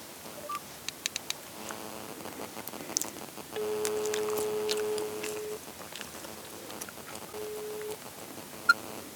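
Touch-tone telephone number being dialed: a run of short keypad beeps and clicks, then longer steady tones. The beeps are clear and sound alone, with no talking.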